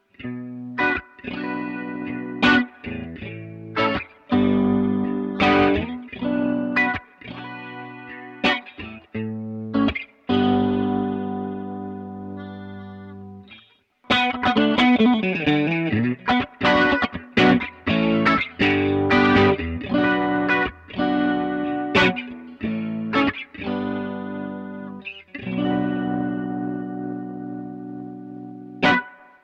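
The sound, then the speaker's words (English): Electric guitar plays through a Keeley Rotosonic pedal, which emulates a rotating Leslie speaker. It comes in two passages of picked notes and chords, split by a short break, and the second passage has a swirling, wavering tone. “So I'm using the Keeley Rotosonic to emulate the sound of the rotating Leslie speaker.”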